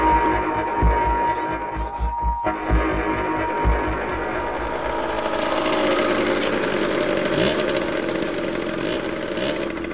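A moped engine runs steadily with a buzzing, throbbing drone. Early on it has a rough low pulsing, then it settles into a smoother, continuous higher whine. No voices are heard.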